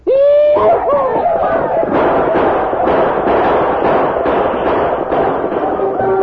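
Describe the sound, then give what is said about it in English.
Gunshots and yelling ring out as mounted Apache braves charge a fort in a radio drama attack. Loud rising war whoops open the scene, then dense rapid shots and shouting continue without a break. “We'll ride over the ridge yelling and shooting to draw their fire.”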